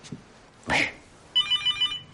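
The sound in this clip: A telephone rings at home with a quick run of bright electronic trills in rapid pulses, following a short burst of noise.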